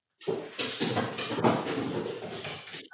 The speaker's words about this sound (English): That was my dog running up the stairs.